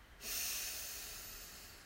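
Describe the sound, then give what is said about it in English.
A deep inhaled breath during a guided breathing exercise gives a soft, airy hiss that swells quickly, then slowly tapers over about two seconds, heard alone. “Once again, another deep breath in.”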